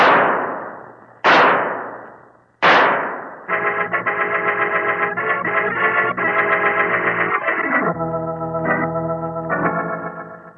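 Three pistol shots fired at a fleeing killer ring out as sharp, loud cracks about a second apart, each trailing off with a ringing decay, before a sustained, dramatic music chord takes over.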